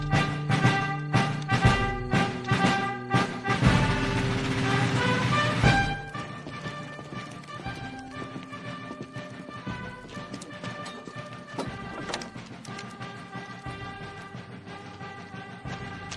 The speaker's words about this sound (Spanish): Es agradable que nos den esta serenata. Es una marcha de caballería, pero creo que a Santa Ana le gusta darle otros usos.